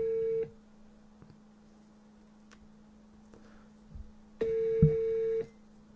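Tones of a telephone call being dialed: two steady electronic beeps about four seconds apart, with a low hum and faint clicks in the quiet gap between them.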